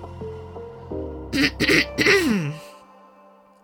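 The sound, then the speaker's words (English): A person gives a deep throat clearing: a few gruff, voiced rasps in quick succession that end in a falling hum, heard alone over a low steady tone. “A deep clearing of the throat brings me out of my introspection and back to the conference room of Velvet Vibe.”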